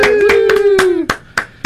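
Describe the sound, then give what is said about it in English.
Sharp hand claps follow a mock wedding ceremony, landing in a loose, steady rhythm, while a sustained, slightly falling cheering voice rings over the first second. “today people clap like the ceremony just ended at a Broadway show”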